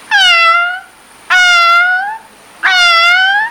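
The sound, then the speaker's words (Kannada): A cat meows three times, each call loud, clear and drawn-out, evenly spaced with short silences between and no other sounds. “ಬೆಕ್ಕು ಕೂಗುವ ಶಬ್ದ”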